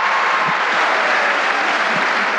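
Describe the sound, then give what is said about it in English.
A large crowd in a huge auditorium applauds in a dense, steady wash of clapping that runs without breaks and stays loud throughout. “In the video of this event, you can see that everyone is all smiles and cheering, like they're at a rock concert.”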